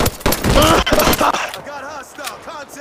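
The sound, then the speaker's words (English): Gunfire in a video game firefight: dense rapid bursts and shots crackle loudly at the start, then fade as a voice talks over quieter background. “I got fire on me. I'm seeing shit. Shot at.”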